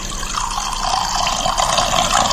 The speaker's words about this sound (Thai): ฟังเสียงนะฮะนี่เทไวน์จะเทไวน์นะนี